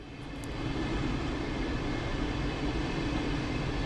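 Railway station ambience with trains: a broad, steady rumbling drone that swells during the first second, then holds at an even level, with no voices.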